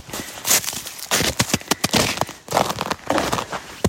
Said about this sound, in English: I'll just take a little walk around here.